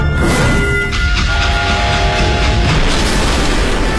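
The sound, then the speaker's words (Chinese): Explosion from charges planted beside a railway track, derailing a train so the locomotive leaves the rails and tips over while the cars behind pile up; a loud, dense, continuous roar and rumble fills the whole clip. “一声巨响，列车车头脱离轨道，侧翻着向前冲出一段，后面的列车扭七八歪的挤作一团。”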